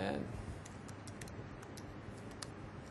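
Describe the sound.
Light keystrokes click on a computer keyboard as text goes into a slide's text box, with many quick, irregular taps, faint under a low voice.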